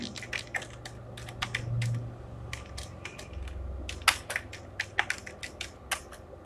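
Rapid, irregular keystrokes clatter on a computer keyboard as text is typed into a post description. Many sharp clicks come in quick bursts over a steady low hum.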